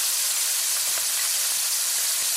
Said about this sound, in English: Okay guys, so we're heating some oil in our pan. So we're gonna add our shrimp here first. So we are using raw shrimp.